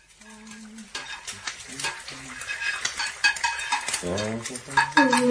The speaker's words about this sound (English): I thought the smell of bacon would get you up.